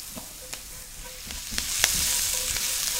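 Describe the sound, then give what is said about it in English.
Brussels sprouts sizzle and fry in a pan, seasoned with salt and cracked black pepper, giving a steady, fairly loud hiss with a few sharp pops and crackles scattered through it. No one speaks. “So Brussels sprouts are going into the pan.”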